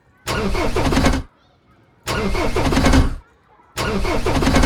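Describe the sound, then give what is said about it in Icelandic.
A bus engine struggling to start, cranking in three separate bursts of about a second each, with short quiet gaps between the attempts. “reynir að kveikja á vélinni sem að gengur eitthvað brösulega”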